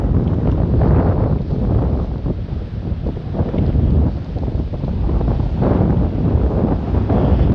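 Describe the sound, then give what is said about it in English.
Wind buffets a microphone's foam windscreen, a loud, continuous low rumble with surging gusts and no talk. “I don't know if the foam is enough to kill the wind or not. We'll see. I can hear it whistling in my ear. The wind, not the foam.”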